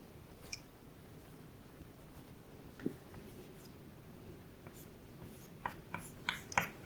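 Writing on a board during a logic lecture, a faint, continuous scratching with a few sharper taps and strokes clustering toward the end.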